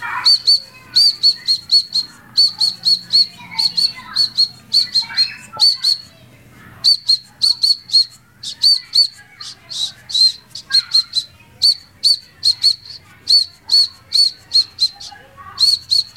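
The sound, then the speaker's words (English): Calls of a Eurasian woodcock, a plump, round-winged, long-billed secretive bird, repeat as many sharp, high squeaky chirps in rhythmic clusters with short pauses, over a faint low steady hum. “It has a fat body and round wings, and it looks sort of like an owl, except owls don't have long beaks, and it likes to stay secret, and it sounds like this.”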